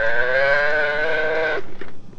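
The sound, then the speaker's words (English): A pull-string farm-animal toy plays its cow sound: one sustained, buzzy recorded moo lasting about one and a half seconds. It cuts off abruptly and is followed by a few soft mechanical clicks. “There's the cow. Now pull it way back. The cow says,”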